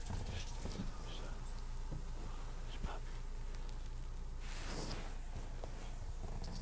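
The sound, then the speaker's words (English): Faint dog barking and whimpering in the background, a few scattered bursts over a steady low hiss. “Excuse the barking in the back.”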